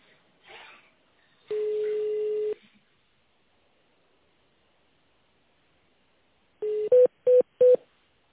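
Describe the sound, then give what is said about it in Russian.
Telephone tones sound while an internal extension is dialed on a company's phone line. A long, steady tone comes first. After a long silence, a short tone is followed by three quick, evenly spaced beeps. “Для соединения с абонентом наберите внутренний номер или дождитесь ответа секретаря.”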